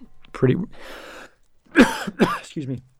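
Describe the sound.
Coughing and throat clearing from a person: a few harsh, rough bursts separated by short pauses, fairly loud against a quiet background.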